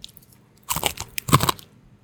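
Crunchy bites into crispy bacon, two loud crackling bursts of chewing separated by a brief pause, with no talk.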